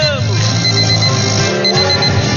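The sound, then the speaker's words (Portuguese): An alarm clock rings continuously and loudly, a dense buzzing clatter with steady high tones that keeps going for the whole stretch. “Ó um relógio despertando, soneca. Ó um relógio.”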